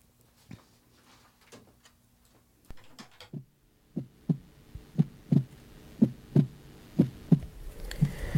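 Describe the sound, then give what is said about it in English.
A heartbeat of low, muffled thumps that start faint and sparse, then grow louder into a steady lub-dub pattern of roughly one double beat per second, with no voices. “The sound you hear is the sound of a heartbeat.”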